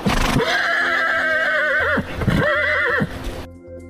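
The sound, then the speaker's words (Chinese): A lead horse in a pack train neighs sharply in a narrow river valley, giving a long, high, wavering whinny that breaks off briefly and then resumes before it fades away. “突然，头马猛地发出一声尖锐的嘶鸣，”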